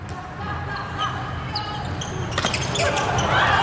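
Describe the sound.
A volleyball bounced on the court before a serve in a volleyball match, a few sharp thuds rising over steady crowd noise in the arena.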